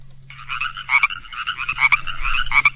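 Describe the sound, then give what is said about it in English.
Chorus frogs sing in a pond in springtime, with many overlapping trilling calls pulsing in quick, rhythmic bursts. The chorus stays loud and steady over a low, constant hum. “The first ones were chorus frogs”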